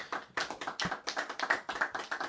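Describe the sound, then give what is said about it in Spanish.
Hands clap together to close a radio programme, a steady, evenly spaced run of sharp claps that stays fairly quiet and carries on without talk. “Así que nos damos un aplauso para cerrar el programa.”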